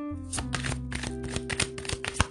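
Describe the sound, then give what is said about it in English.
An oracle card deck being shuffled and cards drawn, making a quick run of many soft papery flicks and taps. The sound is faint, with a steady low tonal hum underneath. “We'll get 5 cards from this deck as well.”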